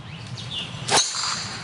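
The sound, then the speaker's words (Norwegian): A golf club swings and strikes a ball once: a single sharp swish and crack near the middle, over steady outdoor background noise, as national team footballers play golf near their team hotel. “Her spiller Erling Braut Haaland og flere av landslagsspillerne golf i nærheten av spillerhotellet.”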